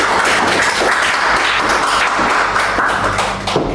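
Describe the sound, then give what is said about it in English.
An audience claps to welcome a reader to the mic at a reading event. The applause is steady, dense and loud throughout, then eases slightly near the end. “If you can please put your hands together and welcome her to the mic.”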